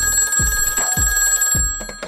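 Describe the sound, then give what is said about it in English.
A telephone rings with a steady, continuous electronic tone that holds through the whole moment. A few dull, low thumps sound underneath, and no one speaks. “That's the phone. I'll get it.”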